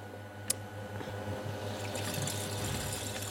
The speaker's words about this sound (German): Und ich werde den Thermomix jetzt auch ein bisschen anmachen, dass es auch schön warm wird.